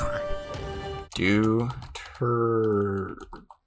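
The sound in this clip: Keys clatter on a computer keyboard as a search query is typed, a quick run of small clicks in the first second before voices take over and speak at length.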